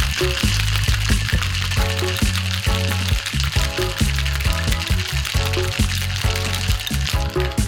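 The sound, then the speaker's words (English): Ice and liquid churning in a Boston shaker as a vermouth cocktail is shaken, a loud, rapid, rhythmic sloshing and rattling that continues unbroken throughout. “Now, having locked up the Boston Shaker, time to shake it away.”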